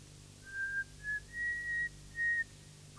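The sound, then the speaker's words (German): A girl whistles a thin, trembling tune out of boredom on a lonely railway platform. There are four or five short, clear notes at a high, slightly wavering pitch, separated by brief pauses, over a low, quiet background hum. “beginnt zu pfeifen, wie ein einsames Mädchen aus Langeweile vor sich hin pfeift.”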